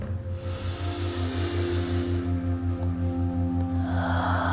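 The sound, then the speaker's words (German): A deep breath is drawn in through the nose as a soft, drawn-out airy hiss over a steady, gently pulsing musical drone. “Nimm einen tiefen Atemzug durch deine Nase ein.”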